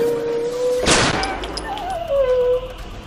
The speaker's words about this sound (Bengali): আত্মরক্ষার জন্য সেই মহিলা পাশে পড়ে থাকা একটা পিস্তল তুলে গুলি করে দিল ভ্যানওয়ালার দিকে